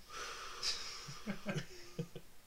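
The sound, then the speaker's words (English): A deep, slow breath taken as a calming pause, with a wheezy, hissing edge on the inhale, followed by a few short breathy puffs at moderate loudness with no speech. “Let's take a soothing breath.”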